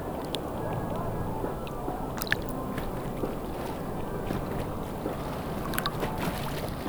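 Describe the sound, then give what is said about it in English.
Wake from paddle boats on the Vltava washes against a hewn, man-made stone shore, a steady low churning rush of water with occasional small splashes and ticks over it. “The wake is different when it hits the shore. On the Vltava, it's hitting stone that is hewn, a man-made stone.”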